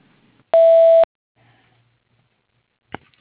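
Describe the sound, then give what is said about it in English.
A voicemail answering machine beep: one loud, steady electronic tone lasting about half a second, followed by near silence and a faint click. “please press the pound key or wait for the beep”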